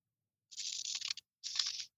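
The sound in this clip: Scissors cutting paper snowflakes: two crisp, papery bursts of snipping and rustling separated by a short silence.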